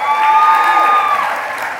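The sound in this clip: A live studio audience in Mexico applauds and cheers a speaker, a loud burst of clapping and raised voices that eases off slightly toward the end.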